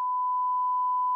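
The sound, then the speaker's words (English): A censor beep: one steady, high-pitched electronic tone holding at an even level for just over a second, heard alone with no voices. “You should just beep the whole thing out.”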